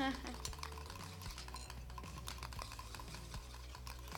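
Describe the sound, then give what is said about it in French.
Quick clicking and tapping of a utensil stirring a homemade cosmetic mixture made with apricot oil. The small taps run steadily and are backed by music. “Je mélange. Moi, du coup, vu qu'on avait de l'huile d'abricot, j'ai mis du sorbet d'abricot.”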